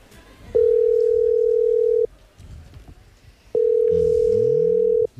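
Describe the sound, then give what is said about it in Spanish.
Telephone ringing tone while a call is placed: two long, steady, mid-pitched tones of equal loudness, each lasting about a second and a half, separated by a pause of similar length with faint background noise. “Está llamando... A ver si lo coge...”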